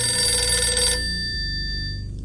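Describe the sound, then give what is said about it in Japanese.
A telephone ringing with an incoming call: a steady, bright electronic ring that fills the first second and then carries on more thinly, with no voices. “電話がかかってきました。 この話をするな と言わんばかりの電話がかかってきましたが”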